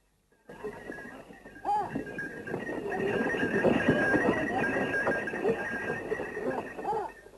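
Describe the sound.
A horse-drawn cart rolls along with a continuous clip-clop of hooves and rumbling wheels, with people talking over it.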